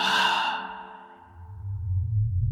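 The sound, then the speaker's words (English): A voice imitates someone breathing out right beside the ear, one long breathy exhale that starts fairly loud and slowly fades away. A low, quiet rumble follows it. “And then right next to my ear, I hear someone just breathe out like,”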